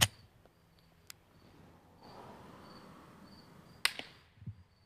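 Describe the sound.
Suppressed gunshots from a baffled silencer are heard as a few quiet, sharp snaps with soft thuds of impact in dirt, set against a low steady hiss.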